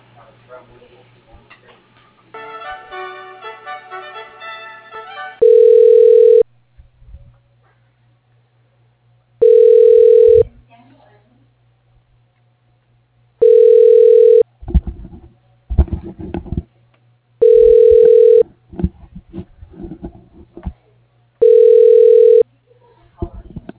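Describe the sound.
Telephone ringback tone as a call is transferred to another line: a short patterned tone sequence, then five loud, steady, mid-pitched ring bursts about four seconds apart, with faint clicks and rustling between them.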